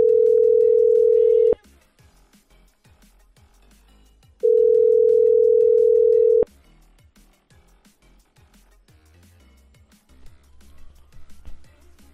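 Telephone ringback tone heard while calling someone: two long, steady, even-pitched tones, each lasting about two seconds with a quiet gap between them. Faint, low background noise follows and fills the rest.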